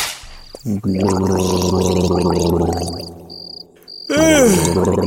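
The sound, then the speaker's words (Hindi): Gargling with warm water at home: a long bubbling, throaty gurgle, fairly loud, breaks briefly and then resumes in a second burst with a wavering, sweeping tone. “उसके बाद तो ना sir, वो जितनी देर भी घर पे रहता गरारे करता रहता।”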